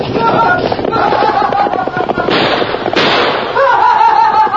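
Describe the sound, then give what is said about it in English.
Gunshots fired at a nighttime campsite, aimed at blanket rolls laid by a fire: two sharp, loud cracks land a little under a second apart, partway through, over a steady bed of talking voices. “Gee, shot at us.”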